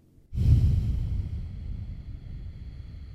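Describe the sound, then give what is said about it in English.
Slow exhale during a breathing exercise: a breathy rush of air starts abruptly, peaks, then eases off gradually over about three seconds with no voice. “Inhale for five. Hold for five. Exhale for five.”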